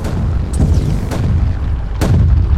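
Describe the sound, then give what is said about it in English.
Grenade explosions in a video game: a few sharp booming blasts burst out over a constant, dense rumble of battle noise. “Damn it. They're back to the grenades.”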